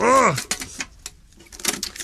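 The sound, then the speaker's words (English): Packing tape is peeled off a cardboard box to open it, giving short crackling rips in a few uneven bursts, and a voice speaks briefly at the start. “Hang on, this is going to take a while. It's quite a lot of tape to get off.”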